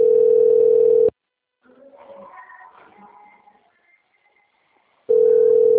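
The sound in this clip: Telephone ringing signal on an outgoing call: two long, steady mid-pitched tones separated by a few seconds of near silence with faint scattered sounds.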